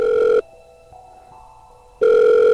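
After a call is dialed, a telephone ringback tone sounds: a steady mid-pitched tone cuts off, a quiet gap follows, and the tone starts again.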